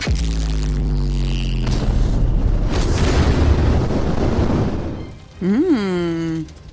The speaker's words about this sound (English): So basically, a huge Wall of Fire is formed.